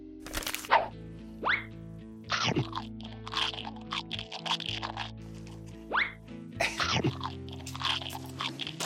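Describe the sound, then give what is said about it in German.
Crunchy potato chips being eaten, with several loud, sharp crunches and bites spaced irregularly between softer chewing, over quiet background music. “Du sollst nicht so viel Chips essen, die Dinger sind mega fettig.”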